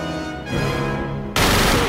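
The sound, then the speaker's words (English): Gunfire rips out as a burst of bullets is emptied into a man, a loud, dense, continuous crackle that cuts in abruptly near the end over a steady tonal backdrop. “He empties a shower of bullets into Jerome.”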